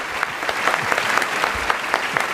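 Audience applause for the performers who played Lord Macbeth and Lady Macbeth, a dense, steady clapping that continues without a break.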